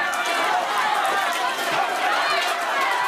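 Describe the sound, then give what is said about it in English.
Crowd of Palestinians rushing to secure food at a charity kitchen in northern Gaza: a dense, continuous clamor of many voices and movement, holding at a steady, loud level throughout. “That's the sound of a charity kitchen in northern Gaza as Palestinians rush to secure food”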